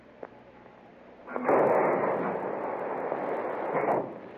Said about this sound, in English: 7, 210 degrees, 4 minutes. Mark torpedo, fire one.